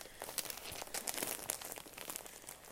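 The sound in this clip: Wrapping paper crinkling in a continuous, fairly faint rustle of many small crackles and crunches, with no voices.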